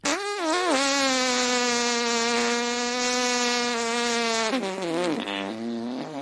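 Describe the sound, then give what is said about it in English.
A series of fart sound effects: one long, buzzy, steady-pitched blast lasting several seconds, followed by a few shorter sputtering bursts with wobbling pitch. “I sent ChatGPT an audio file of a series of fart sound effects and asked what it thinks of my music.”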